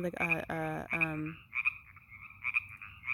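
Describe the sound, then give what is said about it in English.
Frogs croak, first in a few loud, buzzy, pulsed calls in quick succession, then in thinner, higher chirping calls that come and go more faintly. “the frogs are distracting me, sorry.”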